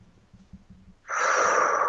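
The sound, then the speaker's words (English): A single deep, loud, breathy rush of air, taken as a calming breath. It begins suddenly after a quiet start and holds steady to the end. “Number two, take a breath, and I can just put my hand on my heart.”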